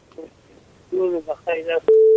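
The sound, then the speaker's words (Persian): A steady, loud phone-line tone sounds as a caller is connected. It follows a stretch of talk and holds level at one pitch to the end. “یک تماس دیگر وصل می سازیم، بشنیم کدام نازنین است از کجا تماس گرفته.”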